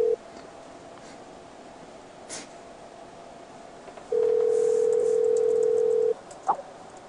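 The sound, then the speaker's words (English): A call ringing out on Skype: a faint low hiss with a brief blip at the start, then one steady, unbroken ringing tone that lasts about two seconds before stopping. “just text me on Skype. Watch her not answer.”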